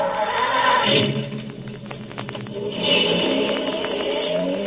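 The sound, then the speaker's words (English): Car sound effect for a robot-operated automobile starting and pulling away: a rough, rumbling mechanical noise with a cluster of clicks in the middle, then a renewed swell of engine noise. “This is a robot-operated automobile. Observe. I merely press this button. Yes, Colonel Bronlich. Drive us to the Castle Deklitz.”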